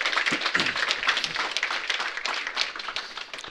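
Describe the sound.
Audience applause rises at a church worship service to welcome the worship leader to the stage: a steady, dense wash of many hands clapping, with no voices over it.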